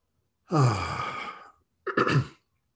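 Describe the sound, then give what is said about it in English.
Deep breathing during a heart-centred meditation: a long, voiced, sighing exhale, a brief pause, then a shorter second breath, heard alone. “Nice deep breath into the center of your heart, expand your heart energy, and let it go.”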